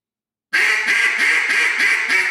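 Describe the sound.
Raspy duck quacks blown on a reed duck call, the reed rattling to mimic a duck. A rapid, evenly spaced series of loud, buzzy quacks sounds alone, with no voices.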